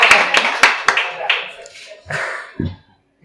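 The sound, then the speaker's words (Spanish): A few people clap briefly to honour a local activist. Several sharp, uneven claps come close together, then the sound thins and fades into quieter noises. “Pues un aplauso para María Marín”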